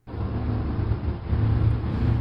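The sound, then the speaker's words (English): A bus pulls by, its engine a steady low rumble mixed with road noise that swells slightly toward the end, with no voices. “A bus pulls by.”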